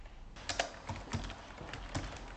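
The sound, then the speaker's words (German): Sharp computer clicks come as someone clicks through on-screen menus: a few irregular, crisp taps spaced unevenly over a steady hiss of background noise, with no voices. “klickt sich durch die arabischen Menüs und wird schnell fündig”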